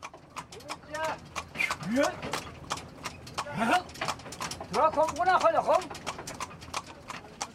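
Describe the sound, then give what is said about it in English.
Hooves clip-clop in a steady, even rhythm as a horse-drawn wagon travels along a modern highway, while people talk over the hoofbeats. “This is completely a surreal scene because it's a normal modern highway, but the only way that we can get along it is in a horse-driven wagon.”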